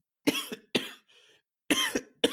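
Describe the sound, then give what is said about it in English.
Several harsh, raspy coughs from one person in quick succession, loud and abrupt, separated by short silent gaps with a faint breath between them. “Coughing.”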